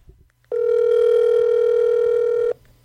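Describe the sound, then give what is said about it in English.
A phone call being placed: one steady telephone tone sounds for about two seconds, preceded by faint clicks. “Okay, so now let's go ahead and give John Schull a call.”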